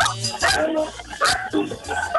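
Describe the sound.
Dogs bark in several short, sharp yelps over a busy, continuous background of noise, the barks uneven in rhythm and moderately loud.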